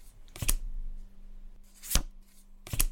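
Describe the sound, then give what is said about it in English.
Cards are drawn from a deck, heard as three brief, crisp papery snaps spaced out over a quiet background, with no talking. “we'll ask the cards, drawing 2 cards, and both must be a yes.”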